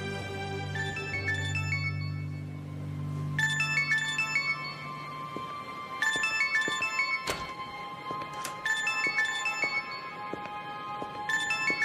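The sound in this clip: An incoming call sounds as a bright electronic phone ringtone, a melodic phrase repeating several times over a low hum that fades after the opening seconds.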